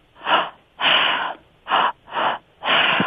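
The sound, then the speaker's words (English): Forceful breaths drawn and pushed through the mouth in a breathwork pattern of belly breath, chest breath and exhale. Five airy rushes of varying length are separated by short pauses, with no talking. “you breathe through your mouth, and it's a belly breath, a chest breath, and an exhale.”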